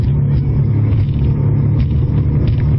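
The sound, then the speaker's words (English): A vehicle engine at full throttle gives a loud, steady, low rumble that holds for the whole stretch without a clear break or change in pitch. “He just went full throttle.”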